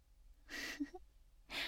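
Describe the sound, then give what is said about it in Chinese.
Quiet, heavy panting breaths: a long breathy exhalation, a couple of small mouth sounds, then another strong breath, with no speech. “瞧你这大喘气的，今晚的时候不会用鼻子呼吸的吗？”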